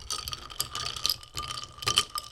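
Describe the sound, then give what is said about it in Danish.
A straw stirs a drink in a glass, making quick rattling clicks and knocks in irregular bursts, with a few sharper clatters near the end and no talking. “Jeg skal bare lige finde et sugerør. Jeg tager det her. Prøv her. Nu drejer jeg rundt. Eller rører rundt.”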